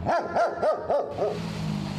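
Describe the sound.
Dogs barking at a bomb-sniffing dog training facility: five sharp, loud barks in quick, even succession, followed by a steady low rumble with no barking.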